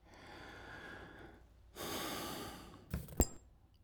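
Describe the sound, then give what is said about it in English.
A single deep breath taken in: a loud, airy inhale lasting about a second, rising out of a faint hiss and followed by a few brief sharp sounds. “Take a breath.”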